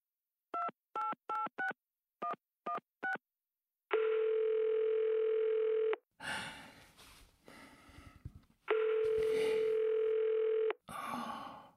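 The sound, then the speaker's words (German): Telephone dialing: a quick run of touch-tone keypad beeps, then a steady tone lasting about two seconds, rustling handling noise, and a second steady tone of similar length. “Dann griff er zum Telefon und rief Laser an.”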